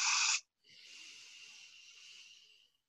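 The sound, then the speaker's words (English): A person breathing slowly during a guided breathing exercise: a short, strong airy breath, a brief pause, then a long, softer breath that fades out gradually. “and breathe out. And I'll put your hand on your heart. Can you feel it beat? Yeah. Breathe in again.”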